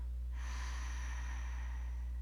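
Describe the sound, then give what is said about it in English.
A deep breath drawn into the belly during seated meditation: after a short pause, one long airy rush of breath continues to the end over a constant low hum. “And take another deep breath into your belly and release.”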